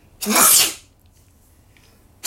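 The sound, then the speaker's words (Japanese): A single loud sneeze: a sharp, hissing burst that swells and fades within about half a second, followed by near silence. “確信に近づくとね、くしゃみが出るって言いますから。”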